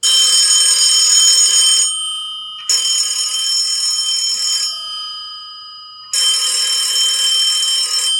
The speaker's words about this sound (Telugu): phone మోగింది